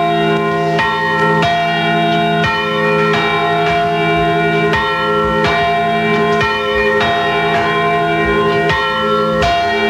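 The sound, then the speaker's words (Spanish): Church bells of a parish church in Palma de Mallorca ring loudly, with many strikes in an irregular peal. Their rich, overlapping tones sustain continuously throughout, with no voices. “Suenan ahora las campanas de la parroquia de San Jaime.”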